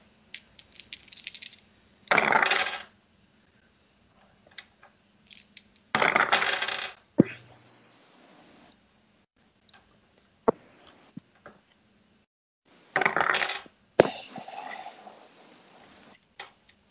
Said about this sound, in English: I gotta grab a d6 and roll it 8 times.